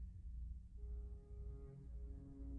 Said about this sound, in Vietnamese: Tiếng còi tàu chợt vang lên lanh lảnh, xé tan buổi chiều thu hiu hắt.